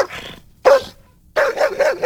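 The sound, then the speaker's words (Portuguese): A dog barks in a few short, mid-pitched bursts with a tonal, slightly whiny edge, separated by brief silences, with no voices. “Cachorro latiu, tem gambá no galinheiro.”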